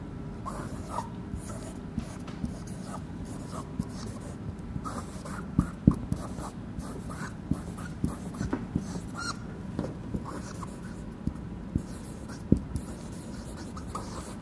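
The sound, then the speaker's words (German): Scratchy strokes of a long word being written on a board, many short rubbing and tapping marks in an irregular rhythm with a few sharper clicks, alone without voices. “Das ist ein langes Wort, aber schreib es trotzdem an.”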